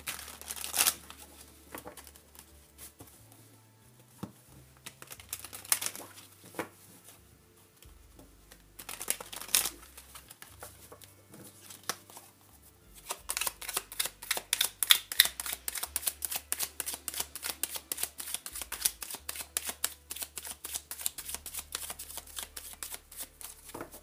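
Tarot cards being shuffled: scattered soft handling and slides at first, then a long stretch of dense, rapid riffling and flicking through the second half, crisp and steady with no voices.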